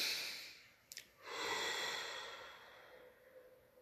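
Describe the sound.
A deep breath during a meditation session with children: a short sniff of air, then a long, airy exhale that swells and slowly fades, with no talking.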